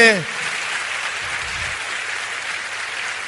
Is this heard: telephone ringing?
no